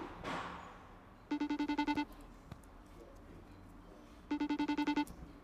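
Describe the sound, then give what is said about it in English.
FaceTime call ringing tone: two short bursts of rapid, evenly pulsed electronic beeps separated by a pause, fairly quiet, with no talking. “Unajua FaceTime siku hizi you cannot even tell if it's ringing or not.”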